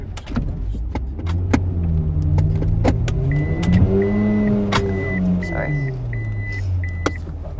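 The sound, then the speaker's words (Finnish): A car being driven around a corner and parked, its engine hum rising and falling while it manoeuvres, with six short repeated parking-sensor beeps sounding over the engine near the end. “Ajamme auton kulman taakse. Teen elämäni huonoimman parkkeerauksen.”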